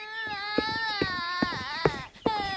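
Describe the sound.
A little girl cries after falling from a wooden bucket and bloodying her mouth: a sustained, high, wavering wail broken by five sharp sobbing catches at an uneven rhythm.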